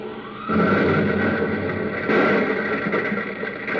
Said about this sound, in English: The braking rockets are set off.